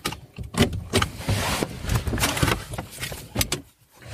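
A car driving a short distance, with a dense, steady rumble of road and engine noise. Small clicks and rattles are scattered through it.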